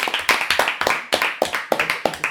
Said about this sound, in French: Allez, applaudissements, c'est la fin.